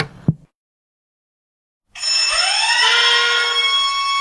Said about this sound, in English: that's the noise of the alarm clock on my mobile phone, which does the job perfectly